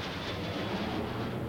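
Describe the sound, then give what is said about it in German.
A railway carriage on a train journey gives a steady, muffled rumble of rolling noise. The sound stays even and unbroken, with no distinct clicks or voices. “Endlich. Ich sitze im Zug.”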